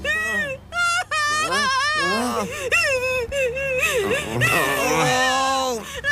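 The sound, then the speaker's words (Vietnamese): A young person whimpers and wails, breaking into wavering, high, voiced sobs that rise and fall in pitch. The crying is moderately loud and nearly continuous, with a low steady hum underneath. “Sao tự nhiên cậu lại khóc? Đừng có khóc. Này này này, đừng khóc.”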